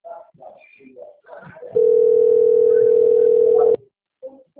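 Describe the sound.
A telephone call's ringing tone sounds as one long steady mid-pitched beep lasting about two seconds, loud and even, with a person talking just before it.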